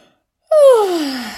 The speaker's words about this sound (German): Gähne dann einmal